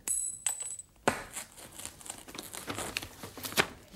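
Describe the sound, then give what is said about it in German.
A glass negative plate crushed underfoot, then photographs torn into small pieces: a bright glassy clink at the start, followed by sustained crackling, crumpling and tearing with several sharp bursts. “Die Glasplatte mit dem Negativ zertrat ich auf den Boden und zerriss die Fotos in lauter kleine Stücke.”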